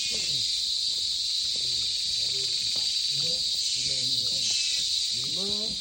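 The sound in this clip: Cicadas in a natural jungle make a loud, continuous high-pitched buzzing drone that never lets up. A man talks quietly underneath the steady insect chorus.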